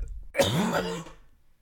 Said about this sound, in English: This is what happens when I don't smoke because I start coughing.